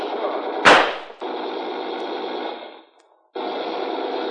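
Gunfire from machine guns in a shootout: one sharp, loud crack, then a long steady rattle that stops briefly and starts again.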